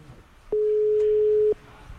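A telephone tone sounds while a call is being placed: one steady, low-pitched electronic beep lasting about a second. It is alone over faint background noise, and no one speaks.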